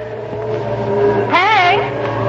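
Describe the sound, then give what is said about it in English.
A motor starts and runs, holding a steady low hum. Midway it briefly surges with a whine that rises and then falls before it settles back to its even drone. “Start the motor.”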